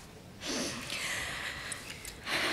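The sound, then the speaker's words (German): Deep breathing in and out during a medical lung examination: a long, airy breath lasting over a second, then the start of another breathy hiss, soft and without talk. “Einmal tief ein- und ausatmen, bitte.”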